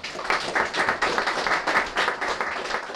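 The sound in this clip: Audience applause welcoming a speaker at a poetry reading, a steady wash of many hands clapping at moderate loudness, with no voices over it.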